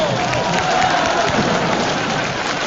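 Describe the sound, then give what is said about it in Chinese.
Applause from the audience at a Chinese crosstalk comedy performance, a loud, dense and unbroken wash of clapping that stays level throughout. “这个鼓掌跟叫好 是 哪位鼓掌哪位翻来。”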